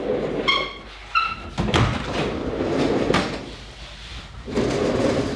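A double-framed sliding balcony door, one frame opening and the other closing, with rolling slides and a few dull thuds and rattles, a thin squeak early on.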